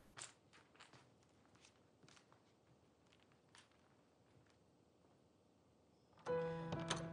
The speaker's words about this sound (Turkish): Tahtın iki yanında kılıçları ile el pençe divan duran dört muhafız selam verip arkalarını dönmeden usulca çıkıyorlar odadan.